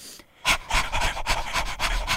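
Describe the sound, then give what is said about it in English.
A human voice imitates a Chihuahua panting: many quick, breathy huffs in a fast, even rhythm, fairly loud and with no talking. “could you do a little Chihuahua breath”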